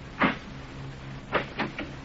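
A door being opened, heard faintly with no talk: one sharp click, a pause, then three quicker clunks of the latch and door in close succession.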